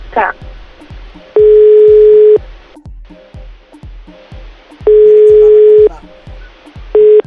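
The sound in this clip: Ringback tone of an unanswered phone call: three steady ringing bursts about a second long with pauses between them, the last cut short. Regular low ticking pulses run underneath throughout.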